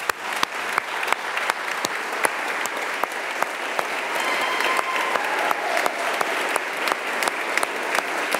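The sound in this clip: The Swiss National Council applauds in its chamber with dense, sustained clapping at an even level. A few sharper individual claps stand out throughout.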